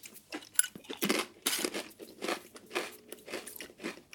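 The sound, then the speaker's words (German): Someone eats salty crispbread with repeated dry, brittle crunches. Each bite cracks sharply, and chewing crackles in a loose, uneven rhythm. “Ist ganz gut, ne? Salziges Knäckebrot.”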